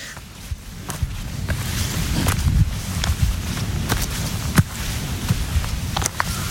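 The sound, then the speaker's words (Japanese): Footsteps crunch along a trail while climbing Mount Asahi in Uji, a few irregular steps over a steady rumble of wind. “私がですね、この宇治の朝日山というところに、登っているところの足跡の音なんですけど”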